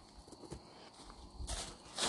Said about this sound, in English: I'm actually gonna go try and walk some of the dog shit off of my boots.